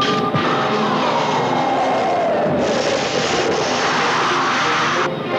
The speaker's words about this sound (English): Let's prepare for a landing, Brad.